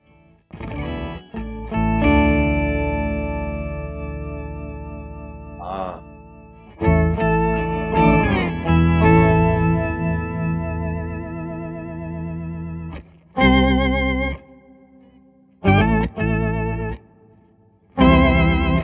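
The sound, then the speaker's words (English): An electric guitar plays an organ-like tone through a modulation pedal. Several sustained chords and short stabs separated by brief silences carry a warbling, chorus-like shimmer, with no voices. “But let's throw in some mod. Let's see what this mod does.”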